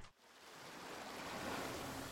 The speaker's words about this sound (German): ich stehe hier gerade am Strand in Italien